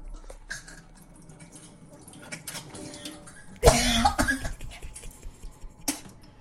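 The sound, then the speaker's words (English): Someone draining their nasal passages after crying, with wet snorting, hawking and throat-clearing. A loud, gurgling burst comes midway, with smaller wet sniffs and squelches before and after it. “Oh, wait. I have a clip. No, that was me. That was me. Draining my nasal passages. Here, we'll cut it in.”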